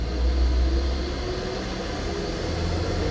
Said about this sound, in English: That noise you hear is a garbage truck. There it goes. You hear it? There it is.